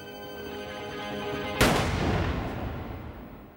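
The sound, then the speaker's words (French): A single gunshot from a revolver that had never been fired, rising as one loud, sharp crack out of a steady tonal background and trailing off in a long, fading tail. “Les voisins ont entendu les coups de feu, bien sûr”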